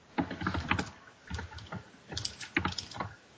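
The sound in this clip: Typing on a computer keyboard during a tabletop role-playing game session: several quick bursts of clattering keystrokes separated by short pauses, fairly soft, with no talk.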